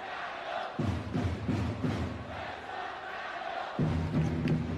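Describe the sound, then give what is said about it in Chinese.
A basketball crowd cheers for the Xiangtan team during a game against Changsha: a loud, sustained roar of many voices, swelling in rhythmic chanting bursts with thudding low pulses. “湘潭队的顽强感染了全场，连长沙球迷都开始为湘潭队加油，向拼尽全力的陈双致敬。”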